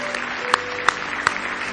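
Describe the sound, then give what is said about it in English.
A church audience claps their hands in praise: three sharp claps stand out, evenly spaced, over a steady background of crowd noise. “Give him one more hand clap of praise if you love him.”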